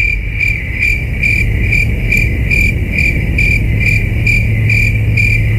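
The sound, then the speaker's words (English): Crickets chirp in loud, steady, rhythmic pulses that repeat evenly throughout, forming a continuous high trilling with no voices. “Is the answer crickets?”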